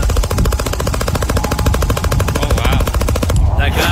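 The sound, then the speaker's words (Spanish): Rapid gunfire from a long pistol: many fast, evenly spaced shots fire in a loud, continuous stream that breaks off shortly before the end. “where you could hear a lot more because this guy is an expert with guns, man.”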